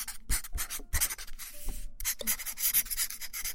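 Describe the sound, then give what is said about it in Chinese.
Marker pen writing on a surface: many quick, scratchy, squeaky strokes in short bursts separated by brief pauses, with one longer stroke near the middle, heard alone. “记号笔的质感好听，你写了一个报告，”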